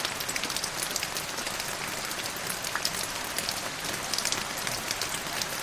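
Rain falls outside a window as a soft, steady hiss of dense patter. Many tiny drops merge into an even wash, with no voices.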